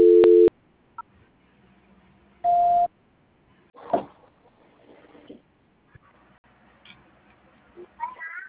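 Telephone tones during a call transfer: two short electronic beeps, the second higher in pitch than the first, followed by faint clicks and low background noise on the line.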